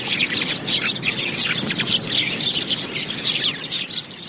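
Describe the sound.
Birds chirping in a park, a dense, continuous chorus of high tweets over steady background noise, loud throughout with no pauses.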